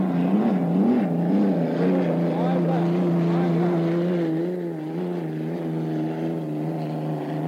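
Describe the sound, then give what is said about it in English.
A race car leading in lap four runs up the backstretch with a sustained, even-pitched engine drone that holds steady and eases slightly in level toward the end. “There's your leader, the Atlas Van Lines, going up the backstretch in lap four.”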